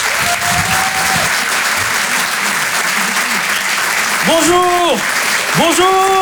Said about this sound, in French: Faites du bruit pour Adèle Fugazi.